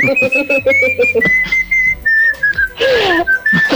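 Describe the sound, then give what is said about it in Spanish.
A person whistles a song's melody alone: a bright, clear tune of held notes and short phrases, with a downward-bending glide in the later part. “una parte con silbido. Voy a silbar, a pesar de que señorita Grey no le gusta”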